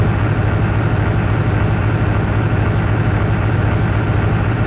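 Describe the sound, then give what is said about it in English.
Engine drone of the bus in the video game Desert Bus: a constant, unchanging low hum mixed with hissy noise, holding the same loudness throughout, with no voices. “No, you're not experiencing technical difficulties. That is the sound of the world's most boring video game, Desert Bus. It was designed by Penn and Teller”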